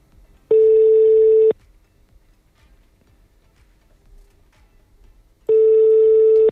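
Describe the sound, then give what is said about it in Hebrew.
A telephone call that fails to get through gives two steady one-second tones, spaced several seconds apart with near-silence between them. “מנסה לעשות שיחה בהפתעה.”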